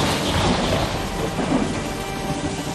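Thunder rumbles over steady rain, a broad continuous roar with swelling low rolls and a constant hiss of falling drops.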